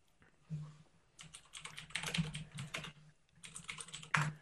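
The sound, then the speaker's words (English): Someone types a search query on a computer keyboard. Quiet, rapid clusters of keystrokes come in short bursts separated by brief pauses. “I'm gonna look that up really quick here. Just verify our sources, Ray. Because that is what we do. Just type in Sugar Ray biker rally, see if it comes up.”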